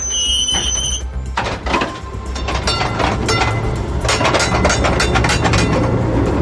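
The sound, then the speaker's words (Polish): A 1949 type N tram, one of the first built after the war, runs on tracks in Warsaw: high metallic wheel squeal at the start, then a steady loud rumble with rattling and clattering throughout. “Jest to tramwaj typu N z 49 roku. Były to jedne z pierwszych produkowanych tramwajów po wojnie.”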